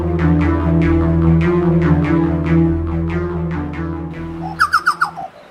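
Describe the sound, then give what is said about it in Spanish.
A chucao tapaculo, a small bird, calls in a long run of quick, descending notes, then gives four loud, rapid notes near the end, all over a steady, low droning background. “El chocao. Esta pequeña ave es conocida por la ciencia con el difícil nombre de Celorchilus rubecula.”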